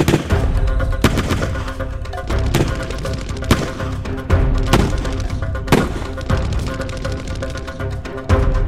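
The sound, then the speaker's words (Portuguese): Gunfire fills a 1930s police shootout with a criminal gang: many sharp, loud shots crack irregularly over a dense, rumbling roar, some bursts coming in rapid clusters. “Clyde e W.D. Jones pegaram suas armas e imediatamente começaram a atirar.”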